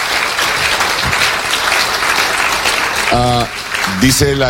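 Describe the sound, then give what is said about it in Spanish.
Church audience applauding with dense, even clapping through most of the stretch, then a voice speaks over the claps near the end. “Dele un aplauso al Rey.”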